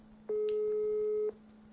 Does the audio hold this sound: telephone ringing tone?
yes